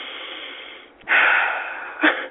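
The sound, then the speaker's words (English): Deep breathing by a person: a soft breathy hiss, then a strong, drawn-out breath lasting nearly a second, followed by a shorter, sharper puff of air. “Okay, let me breathe.”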